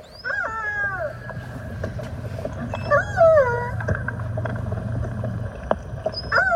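A two-year-old male orca calls for its mother in a hydrophone recording. A few squealing calls slide downward in pitch, separated by pauses, over a low, steady underwater hum.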